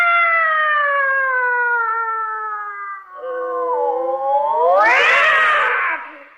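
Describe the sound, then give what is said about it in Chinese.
Cats fighting and yowling: a long, wavering howl that sags slightly in pitch, then swells into a harsh, rising screech before trailing off, with no talk. “猫打架呀”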